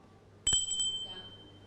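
A teacher rings a small hand bell in a classroom. It gives one bright, high ring that fades over about a second above a low background hum.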